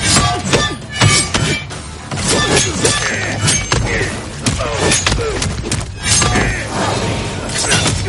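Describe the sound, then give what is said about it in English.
Game fight sounds from Mortal Kombat: a machete-wielding slasher strikes an opponent in a rapid barrage of sharp slashes, shattering crunches and heavy thuds. The impacts come loud and many in close succession. “Yeah, that's what happens if you go against Jason. You get slashed and pummeled into a pulp.”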